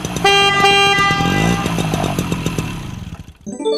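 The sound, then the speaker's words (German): A car horn honks from a fast car in one long, loud blast of about three seconds over a rough, revving engine, with a short extra burst of sound near the end. “Also das Hupi gefällt mir fast besser als das schnelle Auto. Wollt ihr nochmal hören?”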